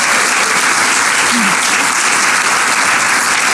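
An audience that includes Coast Guard members applauds, a dense, steady wash of clapping that stays loud throughout, with a brief whoop rising above it partway through.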